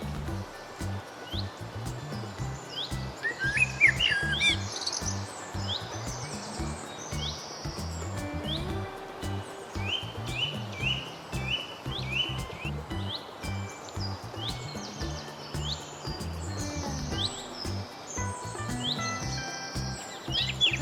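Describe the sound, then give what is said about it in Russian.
Thrush song: varied chirping and fluting phrases repeat throughout over a steady low background hum, with chirps of other birds mixed in. “зяблик, дрозд”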